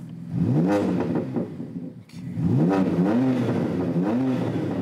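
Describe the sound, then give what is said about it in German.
A tuned BMW car engine revs hard after aftermarket software tuning that added five driving modes. It gives a few loud throttle bursts, each rising in pitch with a deep, rough exhaust growl. A steadier rumble runs between the bursts. “Beliebt ist auch nachträgliches Software-Tuning, wie an diesem BMW. 5 Modi hat der jetzt drauf.”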